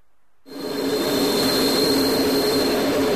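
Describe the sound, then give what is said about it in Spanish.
A train passes over a steel ball placed on the track. After a short silence a loud, steady roaring rumble starts abruptly and holds, with a thin high whine running through it. “El tren se acerca a la bola de acero. Pasa por encima y la aplasta.”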